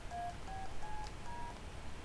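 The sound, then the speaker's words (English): Four short DTMF tones dial the letters A, B, C and D into a PBX phone system, evenly spaced faint electronic beeps over a steady background hiss. “I can dial a number like that by just putting it next to the microphone. Let's dial ABCD, which my PBX won't accept.”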